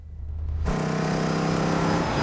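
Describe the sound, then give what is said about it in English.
An oncoming car on the road, one of two Mustangs, approaches with a low engine drone that swells quickly and then holds steady and loud. “An oncoming car is headed towards them. Hey, lights. He flashes his headlights at the oncoming car,”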